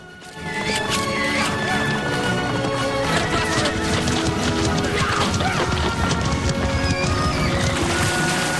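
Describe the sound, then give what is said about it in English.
Mustangs being rounded up by riders in a cloud of dust, a dense, continuous clatter and rumble of many hooves that holds steady and loud throughout. “Jordan takes photos as they round up the horses in a cloud of dust.”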